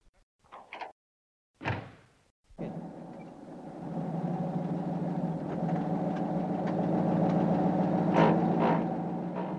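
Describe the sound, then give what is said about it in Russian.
A black open-top Opel Kapitän car drives through city streets: a few brief thumps give way to a steady, low engine rumble that holds and slowly grows a little louder, with no talking. “Черный Opel-капитан с открытым верхом бежал по знакомым улицам”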